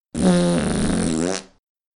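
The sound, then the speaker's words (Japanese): A single long, forceful fart lasts more than a second. It is loud, with a rough, buzzing, steady tone, and it is heard alone without talk. “ああ、すごい勢いです。私の肛門から、たっぷりと臭いガスを吐き出してしまいました。”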